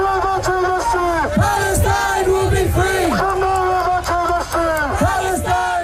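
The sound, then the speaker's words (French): A pro-Palestinian protest crowd in London chants in unison. Loud, rhythmic voices repeat a short phrase again and again, with a steady pulse of raised, tuneful shouting that runs throughout. “On entend une manifestation pro-palestinienne qui a rassemblé de nombreux protestataires.”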